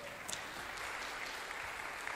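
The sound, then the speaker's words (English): A church audience applauds the tech guy with faint, continuous clapping, an even patter with a few sharper claps near the start and the end. “Tech guy, give him a big round of applause.”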